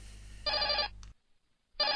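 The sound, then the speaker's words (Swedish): A telephone bell rings in a short rattling burst, then pauses before a second ring begins. The ringing is faint and alone, over a low hum. “Nåväl, ring ring!”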